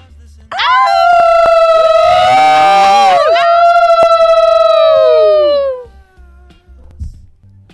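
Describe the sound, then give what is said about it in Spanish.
A long, loud howl on a moonlit night: a sustained tonal wail that swoops upward at the start, dips briefly midway, then slides down and fades after about five seconds. “terminamos aullando en esta noche de luna, en vísperas al encuentro.”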